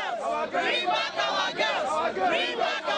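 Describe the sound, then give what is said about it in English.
Protesters outside the Nigerian embassy in Belgium chant a short slogan over and over, urging action against Boko Haram; the crowd's voices rise and drop in a quick, regular rhythm, repeating several times in a few seconds. “You can hear the chanting there, "Bring back our girls." That's the sound of protesters outside the Nigerian embassy in Belgium, angrily urging the government of Nigeria to do more to fight Boko Haram.”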